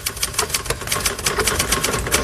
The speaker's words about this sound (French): Le texte définitif est prêt. Elisabeth commence à le taper à la machine.